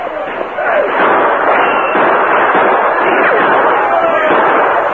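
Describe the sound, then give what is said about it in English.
Dramatized gunfire crackles through a Western battle scene as pioneers fire at riders circling their wagon camp. The volley of shots is dense, loud and continuous, blending into one rattling roar. “He was busy firing at the encircling Indians”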